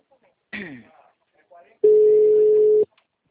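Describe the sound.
A telephone ringback tone as a call is placed, one steady, loud, mid-pitched tone lasting about a second, preceded by a brief spoken voice.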